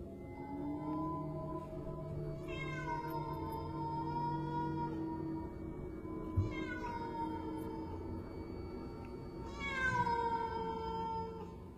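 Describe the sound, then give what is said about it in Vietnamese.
A cat meows at night from a dark garden between two houses as rain falls. Three drawn-out, wavering cries come several seconds apart over a steady low background, and no one speaks. “Tiếng mèo văng vẳng cất lên từ phía khu vườn tối tăm, chỗ giáp ranh hai nhà.”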